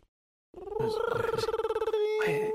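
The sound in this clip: Telephone ringtone from an incoming call that goes unanswered: after half a second of silence, a warbling, rapidly pulsing electronic ring sounds steadily for about two seconds.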